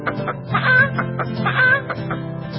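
A hen clucking in a rhythmic run of short, throaty clucks broken by a couple of higher, drawn-out squawks, fairly loud with no speech.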